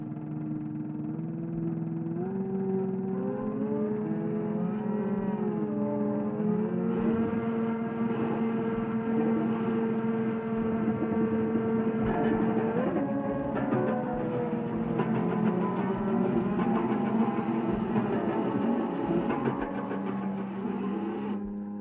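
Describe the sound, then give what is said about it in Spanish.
An Italian futurist noise composition evoking a city waking up, made of whirring, engine-like drones and buzzing tones whose pitches slide up and down, sounding continuously and densely throughout. “Escucharemos un pequeño fragmento, se llama Risveglio di una città, y después comentamos exactamente el punto en el cual te interesó esa búsqueda sonora.”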